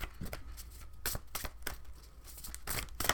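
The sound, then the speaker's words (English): A deck of cards is shuffled, with many quick riffling and snapping bursts in a steady, moderately quiet stream and no talking. “my shuffling skills suck today, so bear with me.”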